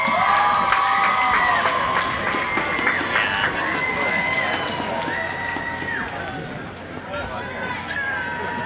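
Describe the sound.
A crowd cheers, whoops and shouts at a ceremony where names are being called. The loud, continuous babble of excited voices holds steady throughout, with scattered high shouts rising above it.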